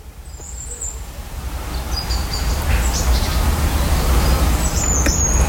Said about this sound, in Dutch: De vogels die mij aanmoedigen om uit bed te komen.